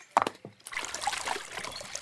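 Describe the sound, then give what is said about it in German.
Water babbles along a brook again after stones blocking it were cleared, a light continuous trickle and splash following a few brief knocks at the start. “Und da plätschert das Wasser wieder munter im Bachbett.”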